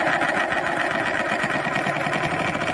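A globe being spun on its stand gives a steady, continuous whirring buzz with a fast, rhythmic rattling texture. It holds an even loudness throughout, with no voices.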